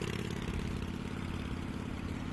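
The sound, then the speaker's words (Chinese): Motorcycle engine, ridden off at speed, giving a faint, steady low rumble that holds an even pitch throughout. “炫然一扭油门，摩托车疾驰而去。”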